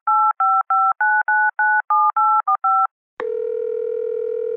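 Telephone keypad tones while dialing a toll-free number: ten quick, evenly paced beeps, then a short pause and a steady, sustained line tone.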